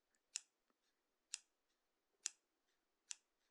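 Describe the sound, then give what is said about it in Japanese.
Scissors snipping: four crisp, bright cuts at a fairly even slow pace, each a sharp metallic snap. Tiny faint clicks fall between the snips, and the whole sequence is quiet and plays alone. “私は結構ハサミの音好きです。”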